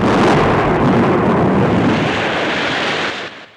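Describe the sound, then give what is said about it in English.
Thunder from a lightning storm rolls as a loud, deep, broad rumble that stays strong for about three seconds, then tapers away. “Outside, lightning forks through dark storm clouds.”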